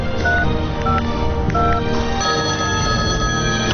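A phone number is dialed on a telephone, with a few short, clear keypad beeps in quick succession over a dense, continuous background sound.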